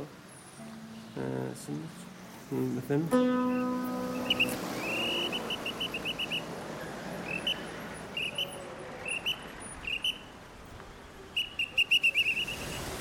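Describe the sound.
A person whistles in imitation of goldfinch and canary song. After a few low voiced sounds at the start, many short, high, warbling trilled phrases follow in bursts, each separated by brief pauses.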